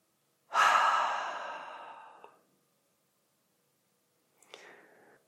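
A slow, deep breath through the nose, heard as one long, airy rush of breath that gradually tapers off, then a softer, shorter breath after a pause of about two seconds.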